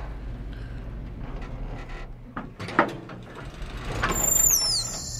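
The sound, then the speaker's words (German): Elevator door sliding open, with a mechanical clunk partway through and then a rising whoosh and high, falling whine near the end, all over a steady low hum. “Die Fahrstuhltür öffnet sich.”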